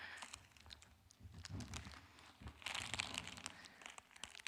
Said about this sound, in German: Eine angefangene Chipspackung.